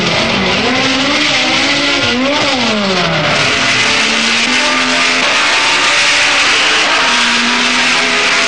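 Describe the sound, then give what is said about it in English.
Racing cars roar away at the start of an 80-lap Grand Prix on the 2.65-mile Brands Hatch circuit. Several loud engines blend into a continuous howl that rises and falls in pitch as they accelerate, with a touch of tyre squeal. “And they're away. The race is over 80 laps on the 2.65-mile circuit. That's 212 miles. Two of them make an inauspicious start.”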